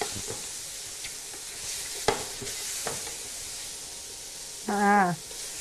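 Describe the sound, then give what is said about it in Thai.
Stir-frying in a wok over high heat with sesame oil gives a soft, continuous sizzle. A few sharp utensil knocks sound against the pan. “เห็นหอมสลดแล้วนะน้ำมันงาข้อสำคัญเลยนะใส่สุดท้ายเร่งไฟแรงแล้วก็ผัดให้สุกเลยค่ะ”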